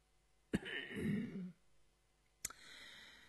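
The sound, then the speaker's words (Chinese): A light throat clearing or soft cough from one person: a single short, raspy burst, fairly quiet, followed by a faint sharp click. “轻咳了一声”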